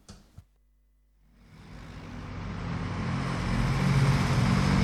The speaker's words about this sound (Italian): Aspettate che finisce il rumore del camion e poi inizia.